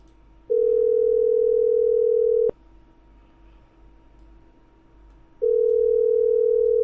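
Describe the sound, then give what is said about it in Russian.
Telephone line tone during a redialed call: two long, steady, mid-pitched beeps separated by a gap of about three seconds, with a sharp click ending the first beep and faint line hiss in between. “Давайте я еще раз наберу.”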